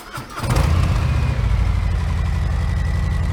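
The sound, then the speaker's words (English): Stock Harley-Davidson Milwaukee 8 motorcycle engine running: a loud, low, rapidly pulsing rumble that swells in within the first half second, then holds steady and even throughout. “Quite a bit different tone from the twin cam, decibel levels very similar, but you can hear that Milwaukee 8 just sounds tighter. The repetitions of the motor are closer together”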